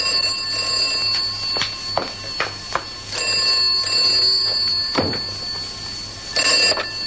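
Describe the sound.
A telephone bell rings in three bright, loud bursts separated by short pauses. The tone is high and metallic, with no voices over it.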